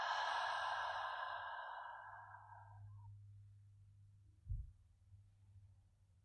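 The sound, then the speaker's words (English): A long exhaled breath released at the end of a guided breathing exercise: a breathy rush of air that starts loud and fades over about two and a half seconds. A low steady hum and one soft low thump follow. “Last one, big breath. And release.”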